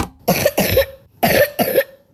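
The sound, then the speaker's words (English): Wet coughs from lung sickness sound out in two loud pairs, each bark harsh and phlegmy, separated by a short pause, with no talk. “So if you hear a wet cough that won't go away,”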